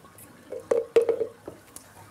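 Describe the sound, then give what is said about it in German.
A seal pup swallows porridge during a feeding, making soft, wet gulping and squishing sounds. A few short, low, moist clicks and slurps come in a loose cluster, fairly faint and without voices. “Der Brei fließt in den Schlund und wird geschluckt.”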